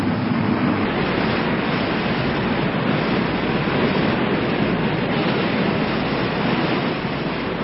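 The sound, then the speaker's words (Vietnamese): Storm waves crash and churn at sea around a ship tossed in a violent storm, forming a dense, continuous roaring wash with no breaks that stays loud throughout. “Giữa cơn bão tố ầm ầm, tàu chia ba trên mặt biển thoát cao thoát thấp, bị hết cơn sóng này đến cơn sóng khác quăng quật tựa như món đồ chơi.”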